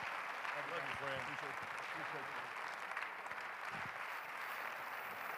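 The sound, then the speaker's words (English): Members of a church audience applaud during a service, producing steady, dense clapping that stays even throughout while a voice speaks briefly over it. “I wonder if we can put our hands together and thank the Lord for bringing Brother Chester to the house of God.”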